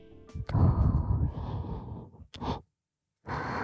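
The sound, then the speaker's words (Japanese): Breathy exhales close to the ear in an intimate binaural audio recording: a long soft sighing breath, then a short puff, a silent pause, and another breath starting at the end. “そして耳元でささやかれる吐息、こんな感じの”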